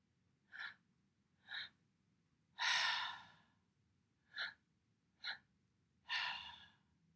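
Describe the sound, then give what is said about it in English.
Three-part breathing through an open mouth: two short inhales, then a longer audible exhale, repeated twice for six soft, breathy sounds, with no talking. “So the breathing itself begins in the lower belly, moves up into the chest with a second inhale, and on the exhale, it's an audible sound from the mouth.”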